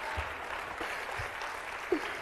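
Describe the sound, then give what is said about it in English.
Church audience clapping weakly in praise, a quiet, thin patter of applause that stays faint throughout. “That clapping is very weak.”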